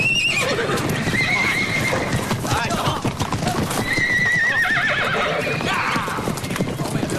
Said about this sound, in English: You run these horses as far off Frost Land as daylight will take.